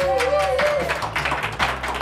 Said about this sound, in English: We have a spectacular live audience. This place is packed. Listen to them.